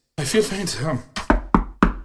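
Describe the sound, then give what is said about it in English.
Knocking on a locked door: a voice speaks first, then four sharp, heavy knocks follow in a fairly even rhythm, the first one softer than the rest. “Damn it all! Who's knocking? It's locked! Now go away!”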